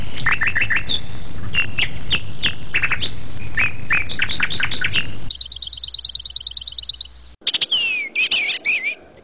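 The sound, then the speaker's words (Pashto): Bird singing loudly in a rapid run of bright chirps and whistled notes, with a fast repeated trill partway through and sharp sweeping whistles near the end. “دا مرغه د خپل څښتن په غوښتنه یوه داسې سندره غږوي چې بل څوک یې له اورېدو سره سم ویده کیږي”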